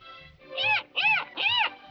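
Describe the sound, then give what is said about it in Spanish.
Three evenly spaced meows from a kitten in an animated cartoon. Each is a high, clear, arched cry that rises and falls in pitch, at moderate loudness and with no talk over them. “¡Saludos, mi pequeño amiguito felino!”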